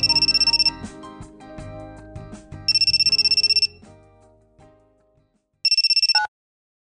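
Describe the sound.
Telephone ringtone sounding in three short, bright electronic bursts separated by pauses. Softer, lower tonal sounds continue between the rings and fade away before the last burst.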